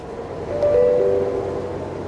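Steady rolling rumble of a tram carrying a passenger to university through Berlin, with a thin, high tonal whine rising briefly above the drone midway through. No talking is heard.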